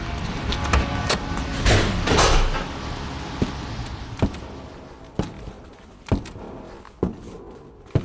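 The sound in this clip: A large front door of a parish church opens with a broad, scraping rush of noise, followed by about six evenly spaced sharp taps.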